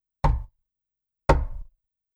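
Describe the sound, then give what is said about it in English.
Two knocks at a door, each a short cluster of dull raps with a brief ringing decay, separated by about a second of silence; the second is slightly longer. “there's another knock at the door.”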